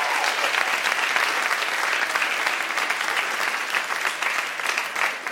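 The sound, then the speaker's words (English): A live studio audience applauds the guests with dense, sustained clapping at an even level from start to finish. “Can we give one more hand to all our guests tonight?”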